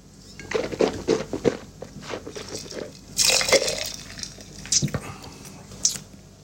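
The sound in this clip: Someone takes a sip of wine, a faint wet slurp set among soft mouth and swallowing sounds.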